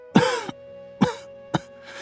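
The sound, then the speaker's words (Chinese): Three dry coughs from a man, each a short, sharp burst that fades quickly, separated by quiet pauses over a faint steady background. “只是咳嗽了几声”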